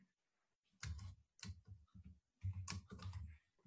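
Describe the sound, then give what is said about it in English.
Typing on a computer keyboard, faint and irregular: many keystrokes come in short clusters separated by brief pauses, with a denser run of taps toward the end. “Sorry, I don't know what's happening today. I can't type at all.”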